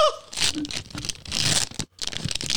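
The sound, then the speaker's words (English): Ripping and crinkling of a foil pack of football trading cards being torn open, a few sharp, bright bursts of tearing with brief pauses and one short gap of silence between them. “So let's go ahead and open the foil pack.”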